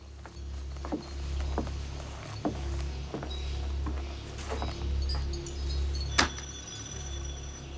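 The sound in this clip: Footsteps climb wooden steps onto the veranda of a sizable house, a handful of soft, irregularly spaced thuds heard faintly over a constant low hum.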